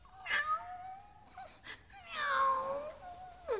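Cat meowing: a few plaintive meows, one of them long and drawn out with a slight downward glide, fairly faint and heard alone.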